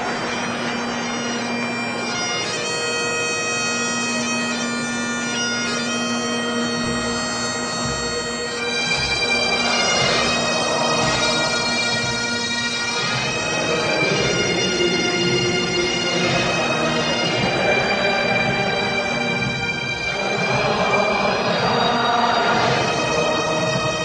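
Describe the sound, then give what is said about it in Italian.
Bagpipes play a steady low drone under a bright, shifting reedy melody, loud and continuous for the whole stretch, with no voices heard. “E allora scendiamo subito in campo, quello da rugby, e che risuonino le cornamuse.”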